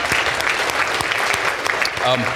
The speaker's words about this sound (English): I applaud you guys.